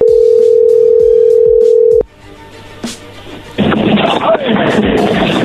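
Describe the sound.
A steady telephone dial tone sounds while someone redials a call. It holds loud and even for about two seconds and then cuts off abruptly, leaving quieter clicks followed by a burst of broad hiss.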